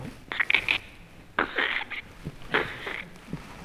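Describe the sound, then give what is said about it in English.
An old floor squeaks underfoot in a monastery building with floors of monks' cells. Three separate creaking groans come in a slow, uneven rhythm with quieter gaps between them. “And these old floors, they squeak.”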